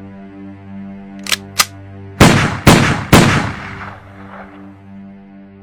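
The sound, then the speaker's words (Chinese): Gunshots ring out at an execution: five sharp, loud cracks, two lighter ones followed by three heavier blasts in quick succession, each dying away briefly before the next. “在我面前开枪，我吉鸿昌要亲眼看着你们是怎样把我打死的。”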